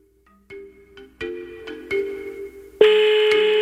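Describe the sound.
A phone rings on an outgoing call to a mobile number. An electronic ringtone sounds a series of short tonal notes that grow louder, then switches to a louder, steady sustained tone.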